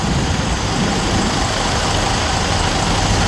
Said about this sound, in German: Er fährt einen Volvo, einen 25-Tonner mit 356 PS, 15 Meter lang.